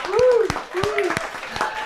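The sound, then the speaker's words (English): An audience applauds a comedy and magic performer taking the stage with a musical act. The clapping is scattered and uneven, with a voice speaking over it. “So please put your hands together and give a wonderful warm welcome to, he's a little bit special, a little bit magic”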